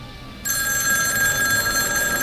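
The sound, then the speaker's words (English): An old telephone's bell rings, starting abruptly after a brief quiet moment and then holding a bright, continuous metallic trill to the end. “Today's theme is the telephone. You remember those, right? Those things that used to ring like that?”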